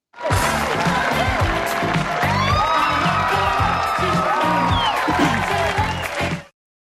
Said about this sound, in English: Obviously, you listeners at home can't see it, but here's the studio audience reaction,